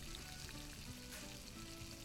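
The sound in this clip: Steak sizzling on a grill during a video game cooking session: a steady, continuous frying hiss with fine crackle, fairly loud and alone with no voices.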